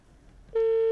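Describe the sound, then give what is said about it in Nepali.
A telephone line tone sounds on a radio call-in show as a call goes unanswered, one steady mid-pitched electronic beep lasting under half a second. “Okay जनाब, call क्यों नहीं pick हो रही?”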